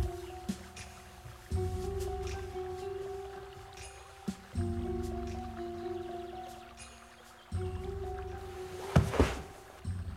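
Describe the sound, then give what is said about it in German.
A boat moving on water: low, rumbling stretches of sloshing separated by short gaps, with a few sharp splashes or knocks and a faint steady tone beneath. “Er schickt ihn uns mit dem Boot zurück.”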